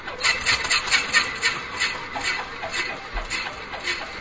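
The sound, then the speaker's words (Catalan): A light aircraft engine starting, turning over with a rough, rhythmic chugging that sounds like a tractor, steady in loudness with evenly spaced pulses throughout. “Primer, com engega, perquè una avioneta a vegades... s'engega i sembla un tractor, és increïble, sona així.”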